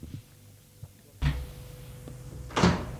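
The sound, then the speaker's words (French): A door opens in a quiet indoor scene: a few faint knocks, then two louder, rough bursts of noise about a second apart, with no voices. “La porte s'est ouverte.”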